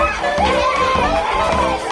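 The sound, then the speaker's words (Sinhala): Children shout and play noisily in a room, their overlapping voices forming a loud, steady din of chatter and yells with no pauses. “හරි හරි ළමයි, දැන් කෑ ගහන්න බා, වාඩි වෙන්න වාඩි වෙන්න.”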